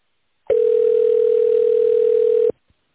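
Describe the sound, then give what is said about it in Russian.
Telephone ringback tone while a call is transferred to an operator: a single steady, mid-pitched tone sounds alone for about two seconds, then cuts off abruptly. “Оставайтесь на линии. Ваш звонок будет переадресован на оператора.”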